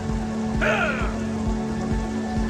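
Rain falling on children walking away through it, a dense, continuous patter over a low steady hum.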